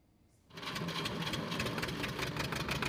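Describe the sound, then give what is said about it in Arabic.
A diesel generator runs to power a grain-sieving workshop. After a brief quiet moment its loud, steady, rattling engine drone kicks in and holds an even, buzzing, mechanical throb. “مع كل تشغيل لهذا المولد تبدأ على العم أبو إبراهيم كلفة جديدة”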